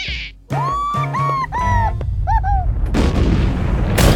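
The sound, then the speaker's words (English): Cartoon eruption from a miniature mountain on a Japanese-themed mini golf course, shooting a golf ball back: a run of wobbling, whistling tones followed by a loud, sustained rushing blast. “It erupts and shoots the ball back to Snoopy.”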